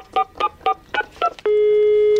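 Telephone keypad dialing tones for a call made during a barbecue: five short, evenly spaced beeps, then one long, steady tone that holds to the end.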